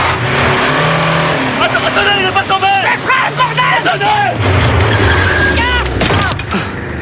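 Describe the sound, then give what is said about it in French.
Car engine starting and being accelerated hard, a loud revving roar with shifting engine tones while people shout and talk over it throughout. “Je vais démarrer. Donnez-moi les clés. Attention, monsieur Drakkar, vous allez basculer en arrière. Allez, qu'est-ce qu'il fout? Accélère à fond.”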